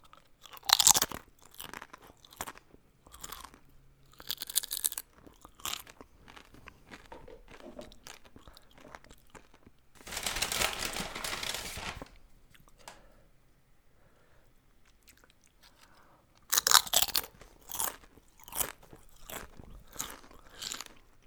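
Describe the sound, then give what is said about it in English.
Tortilla chips dipped in queso are crunched and chewed close-up in bursts of crisp, crackling bites, separated by softer, wetter chewing and quiet stretches. The sounds are soft overall. “So now, for your listening pleasure, here is my eating chips and queso ASMR.”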